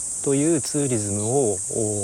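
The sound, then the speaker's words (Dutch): Cicadas drone loudly on a hot 36-degree summer day in Fukushima, a constant high-pitched shrill hiss running steadily throughout. A voice speaks over the drone. “Het is een heerlijk hete zomer. 36 graden, de cicades die schreeuwen op de achtergrond.”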